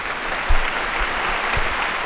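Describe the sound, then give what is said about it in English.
Applause sound effect played in a studio: steady, dense crowd clapping at an even loudness, with a few soft low thumps mixed in. “playing that applause”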